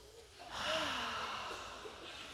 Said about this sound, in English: Take a breath. Everybody take a breath with me right now.